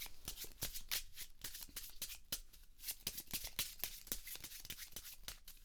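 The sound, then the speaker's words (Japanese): A deck of playing cards is shuffled by hand, giving many quick, crisp riffling clicks in an uneven, fast rhythm. The sound is fairly quiet and steady, with no voices. “とりあえずまあ適当にこうやってシャッフルしまして、”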